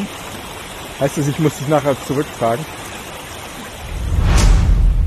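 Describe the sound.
A person jumps into a cold mountain stream on a hot day, a brief loud rushing splash with deep churning water. It follows a few seconds of people talking.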